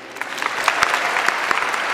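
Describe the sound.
An audience applauds its faculty presenters with sustained clapping from many hands, steady and even throughout.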